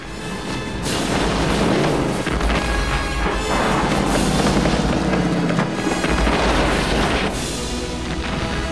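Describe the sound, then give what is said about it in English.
Explosions tear through an industrial plant as tanks, funnels and pipes detonate one after another amid fireballs and flying debris, a continuous loud roaring rumble with a few heavier blasts surging at intervals. “The whole plant erupts in fireballs of orange flame. Batmobile races through the building, completely intact as the building explodes in its wake. Clouds of smoke catapult through the air. Bricks and debris fly about. Tanks, funnels and pipes detonate one after the other.”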